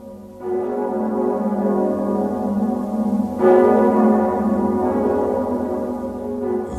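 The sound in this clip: Church bells of St Peter's church in Zurich ring out in a rich, sustained wash of overlapping tones, renewed by a fresh, louder strike about halfway through, continuous and alone.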